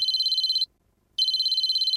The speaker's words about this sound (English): Suddenly, a cell phone rang.